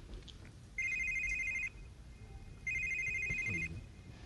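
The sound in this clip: A telephone rings twice, each ring a bright, steady electronic warble lasting about a second, separated by a short pause over faint background noise.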